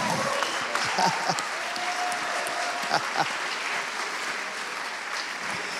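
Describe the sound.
Audience applause welcomes a guest: dense, steady clapping from many hands, holding at an even level for about six seconds.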